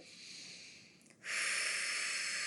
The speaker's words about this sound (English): So I'm going to breathe again, but I'll breathe up here.